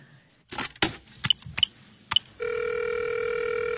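Telephone sounds on an outgoing call: a few clicks and short electronic beeps, then a steady, continuous ringing tone that holds to the end.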